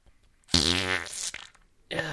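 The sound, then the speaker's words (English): A long, loud, buzzing fart with a rough, rasping tone and a slight stutter, sounding alone before another sound cuts in near the end. “That was a fart.”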